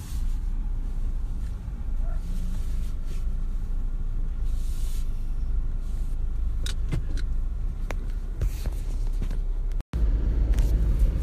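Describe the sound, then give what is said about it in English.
Heard from inside a moving car, the road noise and engine drone make a steady low rumble. A scattering of light clicks and taps sits on top, and the sound cuts out briefly just before the end. “it's Friday morning, I'm driving to work”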